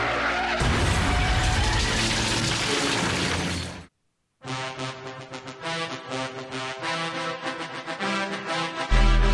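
Tires screech in a car skid during an accident, a harsh, dense noise lasting about four seconds. A brief silence follows, then other sustained, tonal sounds.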